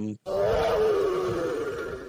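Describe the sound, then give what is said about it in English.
A lion's roar, layered in electronic drum sound design to stand in for a crash cymbal: one loud, sustained, growling roar that follows a very short gap and holds steady to the end. “a lion's roar as a crash cymbal underneath it as well”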